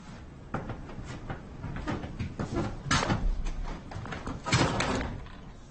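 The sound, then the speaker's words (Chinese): A door being shut amid busy handling noise, with scraping and rustling bursts and a couple of louder knocks and thumps standing out. “把门关上。”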